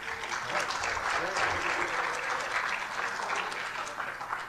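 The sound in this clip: An audience applauds to welcome back a seminary president giving a talk in Tulsa, with steady, sustained clapping from many hands at an even level from start to end.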